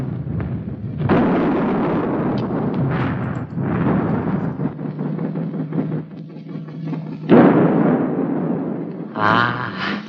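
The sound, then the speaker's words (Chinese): Quick-firing naval guns fire at an enemy ship during a sea battle, producing loud, rumbling bursts and a sustained roar with a few sharper blasts, and no speech. “是不是停止射击啊？ 不，用快炮射击打沉他。”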